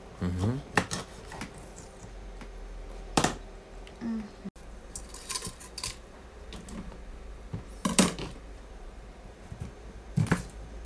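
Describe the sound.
Knife cutting up fish as an actress is filmed for a video: a few sharp taps and scraping clatters, separated by quieter stretches, with people talking in between.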